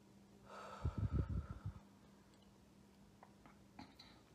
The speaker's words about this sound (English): let's take a deep breath. And exhale.